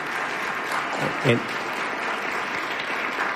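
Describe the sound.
An audience applauds to thank the panelists, a steady, even clatter of many hands clapping that continues for the whole clip.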